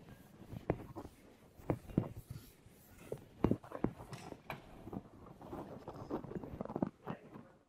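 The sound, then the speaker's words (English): Someone writes the last sentence of a mathematics lecture. The writing makes quiet, irregular scratches and taps in short bursts with brief pauses between them. “Well, let me just write the last sentence, and then I'll take many questions.”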